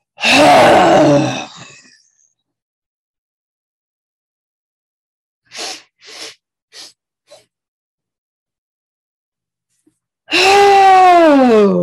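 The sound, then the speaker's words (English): Loud, audible exhales with a voiced, groaning tone: one long breath out at the start and another at the end, with a few short, soft breathy puffs between them. “Try a super audible exhale.”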